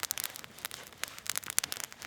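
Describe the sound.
Campfire crackling as a lit cotton ball flames up under stacked sticks: faint, irregular pops and snaps scattered through the moment, with no voices.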